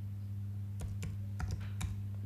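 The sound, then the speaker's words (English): A computer keyboard clicks as a team name is typed: a handful of quiet, sparse keystrokes over a steady low hum. “Can you type in the team name PSM Marasar?”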